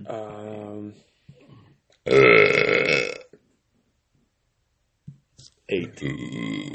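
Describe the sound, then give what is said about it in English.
A loud, raspy burp rumbles for about a second, set between stretches of people talking before and after it. “8 out of 10 on that burp.”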